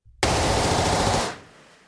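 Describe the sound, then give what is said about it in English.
Rapid gunfire in one sustained burst, a loud, dense roar lasting just over a second before cutting off, with no talk. “I love the gunfire in the background.”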